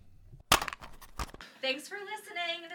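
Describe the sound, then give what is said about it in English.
A cassette tape being put into a tape player: one sharp, loud click, then light rattling and a second clunk, followed by a voice. “I got one of these little outro tapes somewhere. I'll put it right in the tape player. Oh, there it is.”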